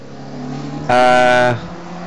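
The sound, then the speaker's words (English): Racing car engine during a six-hour endurance race at the Snetterton circuit, a loud harmonic roar that swells abruptly for about half a second over a low steady rumble, then drops away. “Oh, that sounded good as it went out. Through goes the Euphoria car, just to put another lap on it as it goes through.”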